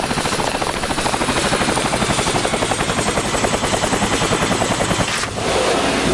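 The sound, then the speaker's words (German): A helicopter approaches to land on a plateau: a loud, steady, rapid chop of rotor blades over a continuous engine whine, holding throughout with a brief dip near the end. “Ich glaube, ich höre einen Helikopter. Tatsächlich, da hinten.”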